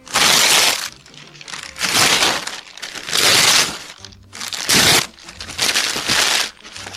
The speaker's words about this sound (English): I'm going to rip up your loan application. Ripping it up. I'm going to rip it up right now. Ripping it into tiny pieces.